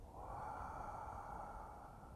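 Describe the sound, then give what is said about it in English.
A slow, natural inhalation during meditation, heard as a soft, steady, airy hiss that holds evenly for about two seconds with no voice. “Then I allow my inhalation to be very natural.”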